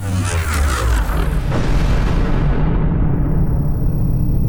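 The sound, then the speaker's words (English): Pirates firing on a spaceship module: a loud, continuous low booming roar with dense, gritty noise that holds steady throughout, with no voices. “Why are they shooting at the module? They're pirates.”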